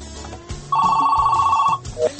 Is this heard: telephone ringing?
yes